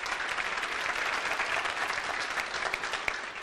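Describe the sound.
Audience applause at a business seminar talk: steady, even clapping from many hands, fairly faint and continuous for the whole clip without any break.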